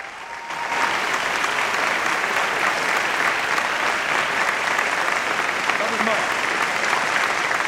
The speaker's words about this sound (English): Shirley soaks up the applause, a balding man from the audience approaches Mike